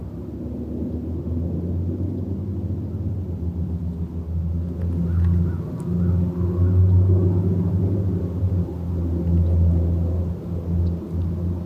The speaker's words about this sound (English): We hear the rumbles of the Trans-Canada Highway in the far distance, people moving back and forth.